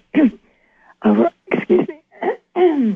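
Rough throat clearing thick with morning mucus, heard as a series of short, phlegmy, gravelly bursts separated by brief pauses, fairly loud and with no talk around them.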